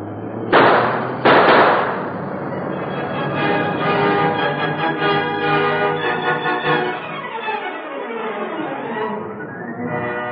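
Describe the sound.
Two sharp, loud gunshots fired in quick succession in a radio drama, followed by sustained, ringing tones that carry on to the end.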